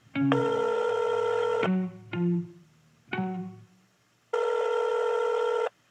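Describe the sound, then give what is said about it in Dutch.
Telephone dialing and ringing as a call is placed: two long, steady ringing bursts at the start and end, with a few short, decaying tones between them. No voices. “En deze week bellen we met Eline van den Hoek.”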